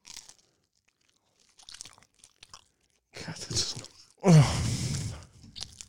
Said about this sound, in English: And also, I don't want to spend the whole show eating, having you listen to this.